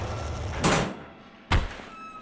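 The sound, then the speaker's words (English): A hatch slides open on a weapons shop in a comic sci-fi setting: two loud whooshing mechanical surges, the second sharper and shorter, separated by a quieter steady hum. “Well, stand back. The ground might be a little shaky while this hatch is opening.”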